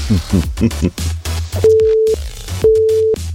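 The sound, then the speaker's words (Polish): Telephone line tone while placing a call: two short, steady, mid-pitched beeps with an even gap between them, following a stretch of talk. “No nic, to jeszcze do Adama zadzwonię poinformować go.”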